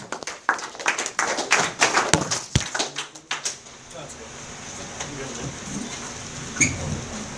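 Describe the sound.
Applause from an audience welcoming a speaker: a burst of many sharp claps for a few seconds that thins out and gives way to a steady background hiss.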